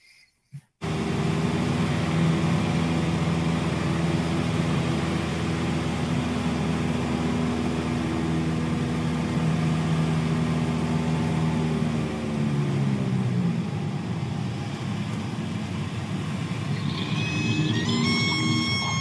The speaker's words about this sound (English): let's put 30 degrees of flaps down and stall it at a left wing or left aileron, right rudder slip, and see what happens